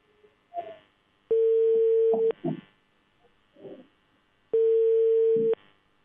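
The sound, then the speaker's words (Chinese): Telephone line tones sound while a county labour inspection office is being dialled. Two long, steady, mid-pitched tones of about a second each are separated by a gap holding a few short, muffled bursts. “来，记者马上拨打一下他们的这个劳动保护部门啊。”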